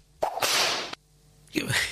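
A radio time signal for one in the afternoon that sounds like a violent whip crack: two loud, harsh bursts with sharp onsets, separated by a brief quieter gap, with no voices.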